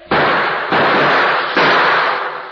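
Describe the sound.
Three gunshots in a shootout from a 1947 radio western drama, each a loud, broad burst that rings out and decays before the next, with no talk between them.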